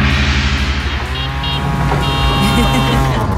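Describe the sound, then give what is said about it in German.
Engine of a tuk-tuk auto rickshaw, a loud, continuous, throbbing motor drone that holds steady throughout, with no break or pause. “Wie könnte so ein Tuk-Tuk klingen? Wahrscheinlich so.”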